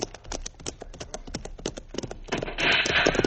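Brisk hoof clip-clop from two ridden horses, many irregular clops that run steadily before a louder, noisier stretch near the end.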